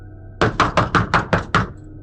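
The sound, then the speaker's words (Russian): Insistent knocking on a front door: seven quick, evenly spaced knocks, sharp and loud, with no voices around them. “Внезапно во входную дверь раздался настойчивый стук, от которого я чуть не подпрыгнул.”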